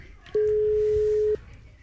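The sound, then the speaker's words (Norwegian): A telephone ringing tone on a call: one steady, mid-pitched electronic tone lasting about a second, then quiet line hiss. “tre ringer nok, da gidder jeg ikke å vente lenger. Så da prøver vi bare på neste her”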